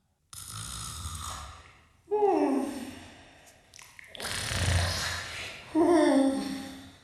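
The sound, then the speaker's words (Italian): A sleeping woman snores loudly and theatrically: about four long, drawn-out snores with rattling, voiced tones and sweeping whistle-like pitch, separated by short pauses, with no talk. “Ma sta russando! Ma senti, ma sembra una fanfara!”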